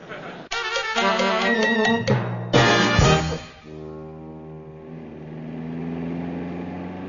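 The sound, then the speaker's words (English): A car driven fast in a race on Long Island, with two loud, harsh, horn-like tonal blasts followed by a steadier, lower engine drone that holds to the end. “Boss, not so fast. We're in Long Island. Maybe Captain Smith's house is in the next block. Hey, you better drive slower.”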